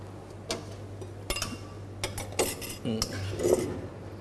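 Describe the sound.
Utensils scrape and clink against a pan as a cooked dish is tossed and mixed with spring onions as the final step. A few sharp metallic clatters rise over a steady low hum.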